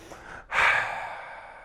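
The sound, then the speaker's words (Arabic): A man takes a single deep breath, a soft rushing inhale that swells and then trails off slowly, with no talking. “انا هاده تاني، هاده اخد نفس.”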